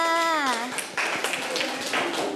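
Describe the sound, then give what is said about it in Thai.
Children clap for a classmate during a Thai lesson: a voice comes first, then a loose, uneven run of hand claps from a small group at moderate volume. “เด็กๆปรบมือให้เพื่อนค่ะ”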